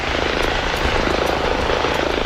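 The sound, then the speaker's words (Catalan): A helicopter flies over the Gironès county, giving a steady, dense rotor and engine roar at an even loudness throughout, with a faint rhythmic chop in the drone and no voices. “Aquest és el so d'un helicòpter que hem enregistrat aquest matí sobrevolant la comarca del Gironès.”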